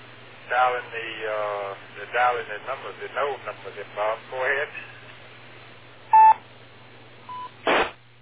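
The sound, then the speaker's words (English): DTMF keypad tones dial an amateur radio node number: a few short, clear beeps follow radio voice talk over a steady low hum. “dialing the node number then”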